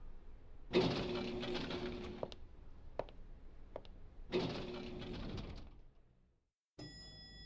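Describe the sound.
A door is opened, heard as two long droning mechanical bursts with a few sharp clicks between them, followed by a brief silence.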